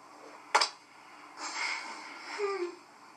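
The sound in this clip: A man sobbing in fear of arrest: a sudden sharp catch of breath, then two longer strained, wheezing sobs that stay fairly faint.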